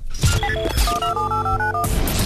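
Answering machine playback tones: a loud run of electronic beeps at shifting pitches, stepping up and down in quick succession, framed by broad rumbling noise at the start and end, with no talk.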